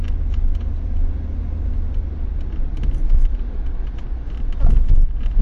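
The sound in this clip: Steady low rumble of road traffic along a busy high street, with passing vehicles swelling the drone slightly near the end; no talking.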